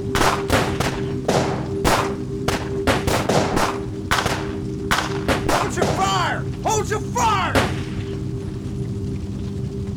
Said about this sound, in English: one of the officers drew his gun and fired, hitting Clyde square in the chest. As soon as he did, every officer followed suit.